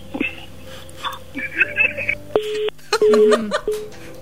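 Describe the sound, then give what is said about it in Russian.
A call-in telephone line drops mid-conversation: brief muffled voice fragments are followed by a few short, steady, mid-pitched disconnect beeps at an even rhythm. “Ну, сорвался, к сожалению, звонок.”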